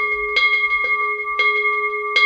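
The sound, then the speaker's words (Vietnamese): A Buddhist ritual bell rings out in a few distinct strikes, each bright onset followed by steady, sustained ringing tones that carry between hits. There is no talk. “Bắt đầu vào khóa lễ thì chúng ta cũng thức chuông, hay còn gọi là rắc chuông hai lần như thế này, và bắt đầu chúng ta thỉnh hồi chuông.”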